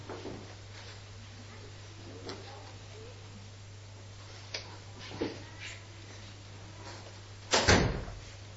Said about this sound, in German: Tür zu.